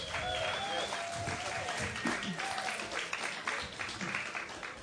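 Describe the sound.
An audience applauds after live music at a storytelling evening. The clapping is dense and steady and holds at an even loudness for the whole clip.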